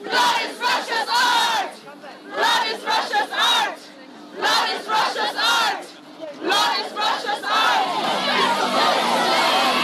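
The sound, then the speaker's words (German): Pussy Riot activists and the Ukrainian feminist group Femen chant protest slogans in unison at the Russian pavilion. Their voices come in loud shouted bursts of a few phrases, separated by short pauses. “Die Aktivistinnen skandieren Blood is Russia's Art.”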